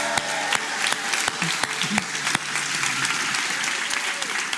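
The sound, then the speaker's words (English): A church audience at an Easter service applauds and cheers. Dense, steady clapping runs throughout, with a few brief shouts rising above it. “Can you make some noise for Jesus one more time? Come on.”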